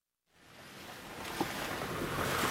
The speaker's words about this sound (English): What you're hearing are the winding, dizzying dirt roads up the mountains of northern Nepal.